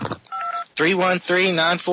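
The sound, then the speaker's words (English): A cell phone keypad gives one short dual-pitched dialing beep, set apart from a brief faint blip just before it, and then a loud voice starts talking right after it. “All you got to do is open up your little cell phone. Type in”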